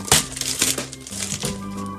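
A paper sleeve rustles and crinkles as it is opened and an item is slid out. A few papery scrapes and crackles overlap in quick succession, fairly loud, with no voices.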